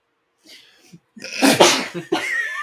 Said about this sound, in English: I have to sneeze.